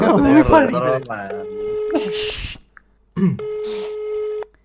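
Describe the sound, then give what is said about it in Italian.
Ringback tone of an outgoing phone call placed during a market-research calling game: after a short stretch of talk, two steady, moderately loud tone bursts of about a second each, separated by a pause with brief noise. “Io chiamo, sta chiamando Silencio.”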